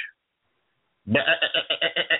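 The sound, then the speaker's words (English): A sheep gives a single loud bleat, a pulsing, wavering baa lasting just over a second after a brief silence. “We have some sheep that will vote. They will vote, yes.”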